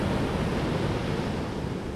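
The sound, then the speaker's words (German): Heavy ocean surf rolls onto a surfing beach at Peniche, Portugal, a steady, loud, broad roar of rushing water with no single crash standing out, alone and without voices. “Wir laufen über die Düne und sehen super heftige Wellen.”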